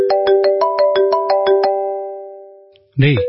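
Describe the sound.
A phone ringtone rings in a crime drama: a quick, steady run of bright, sustained chiming notes in a repeating melodic pattern that fades out, followed by a short silence and then a voice.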